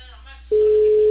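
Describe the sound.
A telephone line tone sounds while a call is being placed: a single steady, unbroken pitch that cuts in loudly about halfway through and holds to the end, following a short stretch of faint talk.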